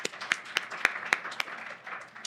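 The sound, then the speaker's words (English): Audience applause follows a speaker's introduction at a legal professionals' event, heard as faint, sparse claps spaced at an irregular rhythm over a low murmur. “Please give a round of applause for Catherine Anderson.”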